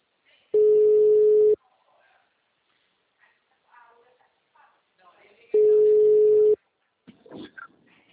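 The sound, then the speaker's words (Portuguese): A telephone ringback tone sounds twice while a call is placed: two steady, one-second tones about five seconds apart, with faint scattered sounds between them. “Eu tô ligando. Tá chamando.”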